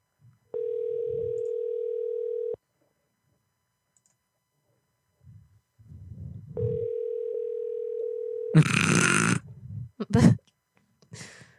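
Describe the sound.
Ringback tone heard while placing a telephone call: two long, steady electronic tones about two seconds each, separated by a pause, with people talking between and after the rings.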